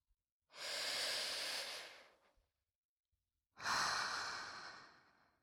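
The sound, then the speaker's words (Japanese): Slow, deep breathing: two long, airy breaths, each lasting nearly two seconds and separated by a quiet pause, with no talking. “もっとゆっくりと深呼吸をするのだ。 肺にゆっくりと息をため込むように力を抜いて、”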